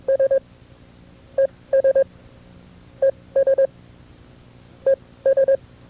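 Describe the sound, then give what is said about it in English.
Morse code tones send the "and" sign correctly: one short beep, a clear gap, then three quick beeps. The steady mid-pitched pattern repeats several times with no voices. “This is the wrong way to send the and sign. The and sign should sound like this.”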